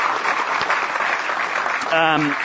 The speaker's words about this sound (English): We also want to thank the audience. When we clap.